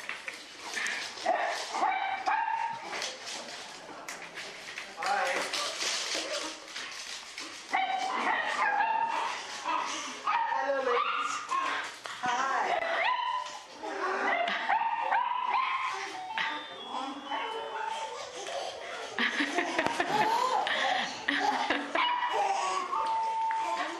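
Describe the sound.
An excited dog yips, whimpers and barks in the background while people talk over it. The dog sounds recur throughout in short, high-pitched bursts mixed in with the voices.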